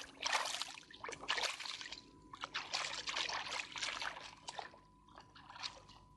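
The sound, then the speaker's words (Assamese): Running water trickles and splashes as hands are washed after fishing. It comes as a quiet, uneven series of splashy bursts over a faint steady hum. “এতিয়া হাতখন ধুই লওঁ”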